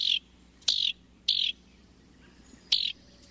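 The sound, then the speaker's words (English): A house wren calls in open woodland with four short, high, bright chirps, spaced unevenly with gaps of silence between them, over a faint low background hum. “It's a familiar songbird and one of the most thoroughly studied by biologists. In North America, house wrens breed in open woodlands, fragmented forest, and along wooded edges”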